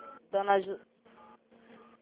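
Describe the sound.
A telephone keypad sounds as a number is dialed, giving a few short electronic tones separated by brief gaps.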